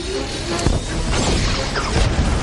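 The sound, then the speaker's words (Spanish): A shrink ray machine firing at the moon in an animated film: a loud, dense, roaring blast of noise that holds steady throughout, with a few sharper crackling impacts inside it. “la máquina reductora contra la luna y dispara”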